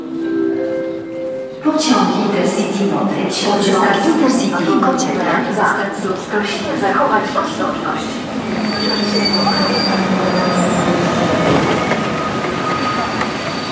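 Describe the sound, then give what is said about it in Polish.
A train at the Włocławek railway station rumbles and rattles, with metallic wheels squealing sharply over the rails. The sound is loud and continuous throughout. “Jaka tu stacja jest? Stacja Włocławek.”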